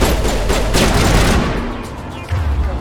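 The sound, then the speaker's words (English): Dense video game gunfire in a firefight, a steady wash of overlapping shots at fairly even loudness. A few sharper bursts stand out, and the level dips slightly before a renewed burst near the end. “What are you guys shooting at?”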